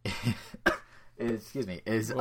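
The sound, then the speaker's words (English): A person laughs and coughs, one sharp cough burst set among short voiced, laugh-like sounds, fairly quiet overall. “I like laughed and then coughed”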